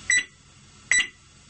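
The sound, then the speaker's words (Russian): Two short electronic beeps, each a bright, high tone that decays quickly, spaced just under a second apart over a faint low hum. “Нет. Это два коротких. Это что на азбуке Морзе?”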